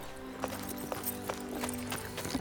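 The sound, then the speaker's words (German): Hoofbeats of a horse as a rider arrives on horseback, a faint, evenly spaced clip-clop of several steps over a low steady background. “Da kam auch schon der Prinz geritten.”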